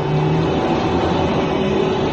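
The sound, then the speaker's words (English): A steady rumbling hum from an urban link train leaving a tube station, continuous and fairly loud with a low drone and faint sustained tones, with no distinct individual events or voices. “At the Pennybaker Street tube station, Foom and Drone board an urban link train that carries them to a small spaceport near Croydon.”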